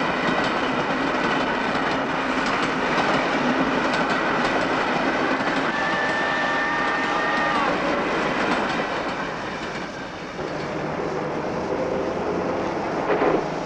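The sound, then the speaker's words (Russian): Trains rolling past fill the whole clip with a loud, dense rumble. Rhythmic clickety-clack of wheels and brief squealing tones sound above it, and the roar dips slightly near the end. “Разворачивается, смотрит с холма за поездами.”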